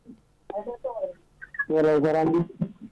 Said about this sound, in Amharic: ቴሌፎን መፅኣትና ኣላ። ሃሎ ሎ ሃሎ ደባይዋ መርሓባ።